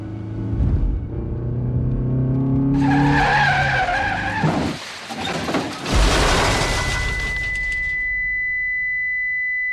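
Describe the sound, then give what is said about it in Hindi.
A car turning sharply with its tires skidding: a long, harsh screech over a low engine rumble, with squealing tones, a second loud surge of noise, and a thin steady tone lingering near the end. “विनय ने गाड़ी suicide point की ओर घुमाई”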